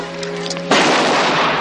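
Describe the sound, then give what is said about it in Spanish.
A rifle is fired into the air in a farm courtyard where peasants are working. A quieter, tonal stretch is cut off by one abrupt, loud blast, and a dense, noisy roar holds until the end. “Olmo toma el fusil de Leónida. Alfredo se tapa los oídos mientras su amigo dispara al aire.”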